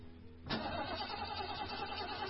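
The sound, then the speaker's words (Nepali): A car engine cranks on a car whose battery, replaced only ten days earlier, is failing. After a brief quiet lead-in, a steady, rough, mechanical churning starts abruptly and continues to the end. “होइन, के भयो, किन बन्द भएको गाडी? Battery फेरेको 10 दिन पनि भएको छैन, कति छिटो बिग्रिएको, बन्द भएको भइसक।”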